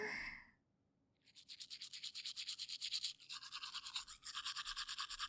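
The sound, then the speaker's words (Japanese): Toothbrush bristles scrubbing someone's teeth. After a brief quiet start comes a long, steady run of many fast, hissy back-and-forth strokes, fairly soft and with no talking. “兄ちゃんの歯を磨く時間癒されるな。”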